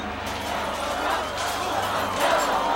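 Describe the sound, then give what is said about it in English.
Student demonstrators crowd outside the North Korean embassy, a rumbling mass of mingled voices and shouts that swells toward the end. “Well, that's some students outside the North Korean embassy.”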